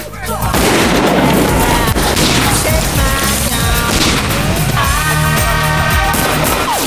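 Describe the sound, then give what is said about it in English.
Gunfire erupts as two men shoot at police officers in a street. A loud, dense barrage of cracking shots and booms runs continuously over a busy, noisy mix. “Dave and Julian shoot at two coppers.”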